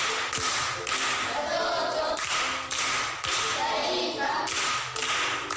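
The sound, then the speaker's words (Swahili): Pupils clapping for a classmate who answered correctly at a primary school quiz, patterned group clapping in loud bursts separated by short breaks, with crisp slaps and some duller thumps. “Makofi kwa shangazi.”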